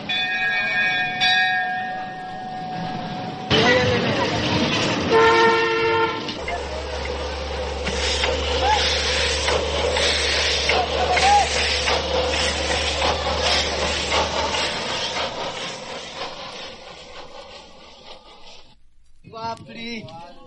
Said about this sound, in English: So let's take a little trip with just our ears. The railway station platform sounds like this.